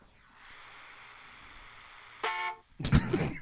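A car horn gives one short, bright honk as a ride-share car arrives, after a low steady hiss, followed by a louder broad thud-like noise.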